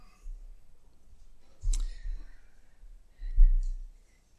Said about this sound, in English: I still hear pages turning, so I should let everybody find it.